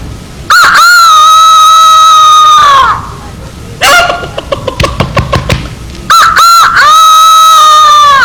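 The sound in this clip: A rooster crows loudly on a farm, giving long, strained crows separated by a stretch of rapid, stuttering clucks, the last crow cut off at the end.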